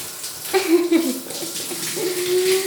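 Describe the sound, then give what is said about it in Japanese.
Hot bath water pours over a body in a short, continuous splashing wash that swells briefly louder midway. “体にお湯かけてくね。”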